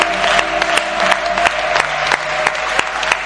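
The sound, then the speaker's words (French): Rhythmic clapping during church worship: a steady, evenly spaced beat of many hands over sustained musical tones. “Acclamons notre Dieu encore.”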